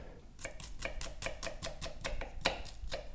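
Red onion is chopped on a board with a dull knife in a home kitchen: many crisp, fairly regular chops at a quick, steady pace, with one sharper strike near the end.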